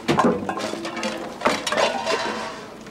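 Utensils are thrown against a cloth curtain in a room, giving a few irregular clattering clinks and knocks over a muffled, jumbled background.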